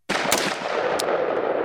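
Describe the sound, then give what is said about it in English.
Two sharp AR-15 rifle shots stand out as brief, bright cracks against a loud, continuous roar of noise that fills the whole clip. “This is the sound of an AR-15 basically firing just twice randomly.”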